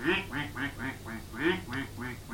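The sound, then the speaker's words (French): A duck quacks in a quick run of many loud, nasal calls, evenly paced and roughly equal in strength, with no other sound around them. “il voit arriver un canard blanc, un peu plus grand que les autres canards”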